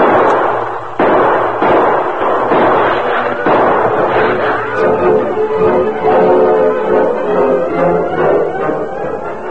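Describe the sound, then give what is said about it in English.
Gunshots exchanged in a canyon: a few loud, sharp reports spaced over several seconds, each followed by a rumbling tail that carries on to the end. “you continue to give answering shots to theirs.”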